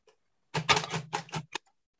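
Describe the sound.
Braille signs being typed on a Perkins brailler: a short run of a few quick, clunky mechanical key strikes with a dull low thud beneath them, set in near silence.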